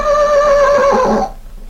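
A horse named Tarzan gives a single loud, ringing whinny that holds for over a second, then breaks off into near quiet.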